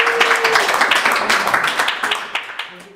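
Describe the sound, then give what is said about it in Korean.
Audience applause at a gathering after a rousing speech: a loud, dense burst of many clapping hands that gradually fades, with a few sharper claps standing out near the end. “네, 큰 박수 부탁드립니다.”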